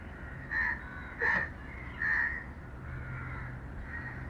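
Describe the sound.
A crow caws harshly, with three distinct calls spaced under a second apart, followed by fainter, softer caws over a steady low background hiss.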